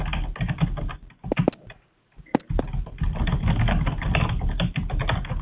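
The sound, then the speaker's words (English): Rapid typing on a computer keyboard while a chat message is written, with dense, uneven clicks and key taps, a short pause in the middle, then a continuous burst of keystrokes. “He is typing.”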